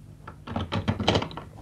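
Hotel room door opening: a few muffled thunks and soft clattering knocks of the door and latch, rising to a brief louder cluster near the end.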